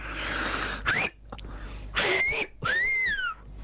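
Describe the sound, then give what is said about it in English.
A four-finger whistle makes three short, breathy attempts, each a rushing hiss with a thin sliding tone. The last is the longest and clearest, its pitch rising and then falling. “Four-finger whistle. How is that better than just a normal mouth whistle?”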